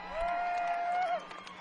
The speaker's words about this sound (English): Let's have another big round of applause for Amy Cook, please.